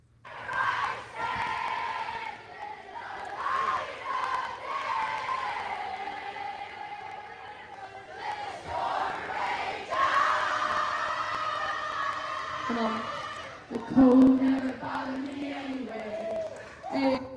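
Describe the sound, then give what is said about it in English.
Crowd at a silent disco shouts and cheers, with many voices calling out together in waves that rise and fall. The crowd is fairly quiet overall, with a louder surge of yelling near the end. “So here's a video of what the silent disco sounds like.”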